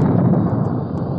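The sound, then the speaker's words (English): A deep, heavy boom from a battleship's 16-inch naval guns firing off the North Korean coast rolls as loud, low rumbling that eases slightly over about a second. “The blast of sound you hear comes from the 16-inch guns of the Big Mole, the battleship Missouri.”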